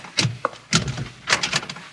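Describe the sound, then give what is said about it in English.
A locked door being tried early in the morning at a place that is not yet open, giving a few sharp rattling thumps and jolts in quick, uneven bursts as the door is pushed and shaken without opening. “Door's locked. Place ain't open. Too early in the morning.”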